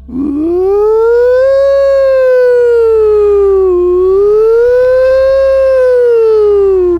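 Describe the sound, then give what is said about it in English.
A human voice imitates an old mechanical siren with a loud, sustained wailing tone. It climbs, dips near the middle, swells again and sags slightly at the end. “When sirens were invented, you know, the machinery was only capable of going,”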